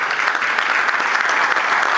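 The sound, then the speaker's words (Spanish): Applause for a speaker at a conference, a dense, steady wash of many hands clapping that holds at an even loudness throughout, with no voices standing out. “Pues seguimos con un fuerte aplauso entonces.”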